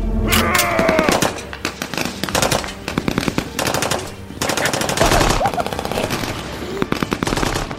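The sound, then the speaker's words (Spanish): Rapid automatic gunfire from men shooting guns, many loud cracking bursts in quick succession with brief gaps, continuing throughout. “Desde sus escondites salieron sus hombres, armas en mano, y sin la menor reserva comenzaron a disparar a donde creían que estaba el Alush.”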